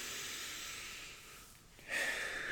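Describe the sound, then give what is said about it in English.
People taking deep breaths together: a faint, airy hiss of breathing drifts along, dips, then swells into a stronger exhale near the end. “Just want to take some deep breaths. Everyone take some deep breaths right now.”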